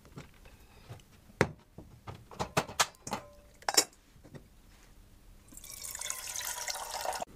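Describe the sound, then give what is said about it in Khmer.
Water being put on to boil while cooking: a few clinks and clatters of kitchenware, then quiet water running or pouring steadily for the last couple of seconds. “ខ្ញុំសូមដាំទឹកជាមុនសិន”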